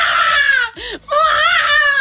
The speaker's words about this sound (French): merci quoi pour son cri de bébé aussi. Tu peux nous le refaire, s'il te plaît.